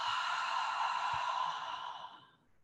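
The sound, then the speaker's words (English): A slow, airy exhale through the mouth during a guided deep-breathing exercise, after breathing in through the nose. The breath is a single long, steady rush that fades away near the end. “So I invite you to breathe in through your nose and exhale through your mouth.”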